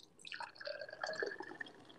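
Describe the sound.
Liquid dripping from an opened container: a quick run of faint, bright plinks and small splashes, irregular and close together, with no voices.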